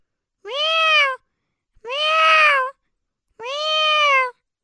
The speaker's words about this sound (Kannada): ಬೆಕ್ಕು